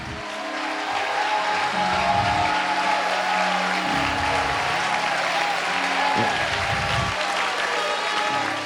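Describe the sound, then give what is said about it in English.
Church audience clapping hard and shouting praise, a loud, continuous roar of hands and voices over sustained low musical tones for nearly nine seconds. “If you believe that, clap your hands and give God a great shout of praise.”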